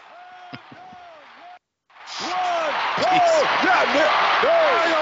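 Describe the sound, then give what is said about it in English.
A wrestler hits the ring with a power slam, a sharp thud under talking voices, and after a brief silence a loud roaring crowd continues as people talk. “Oh, power slam!”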